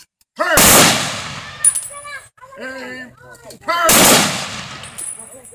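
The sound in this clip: Firing squad gunfire: two loud rifle volleys, each cracking sharply and decaying into a rumbling tail, with voices and a few small clicks and knocks heard between them.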